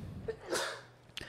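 A single quiet sneeze, a short sharp burst of breathy noise rising out of a faint background, with a couple of small breath sounds around it.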